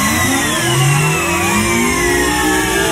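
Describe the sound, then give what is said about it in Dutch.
A supercomputer start-up effect gives a loud, dense whirring drone threaded with several gliding, rising tones, much like an engine revving up, with no voices. “We starten de supercomputer nog eens op.”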